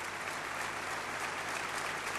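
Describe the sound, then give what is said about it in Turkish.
A concert audience gives dense, continuous applause as the conductor and soloist bow to the orchestra after the performance, a steady even roar of clapping with no break. “Orkestrayı alkışlıyor her ikisi, orkestrayı da selamladılar.”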